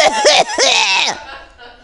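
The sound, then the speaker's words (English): Coughing after smoking marijuana: two harsh, voiced hacking bursts in quick succession, loud and close, trailing off into a faint breathy tail. “Such a good cough.”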